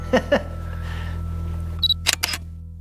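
A camera shutter fires while photographing a horse whip: a faint beep, then a few sharp, quick clicks over a steady low hum.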